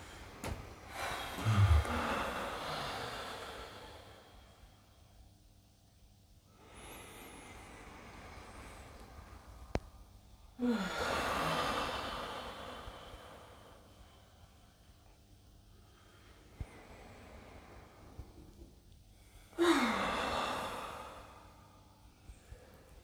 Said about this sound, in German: Können wir gemeinsam dreimal tief ein- und ausatmen. Tief ein.